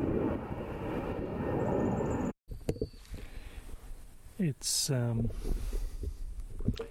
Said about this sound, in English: I don't know if you might be able to hear it. There's a plane going overhead from the airport.